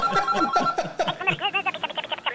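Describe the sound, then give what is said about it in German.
A telephone ringing with an incoming call: a rapid, steady trill of short pulses that rises under laughing talk and continues to the end. “Meine Frau ruft mich gerade an.”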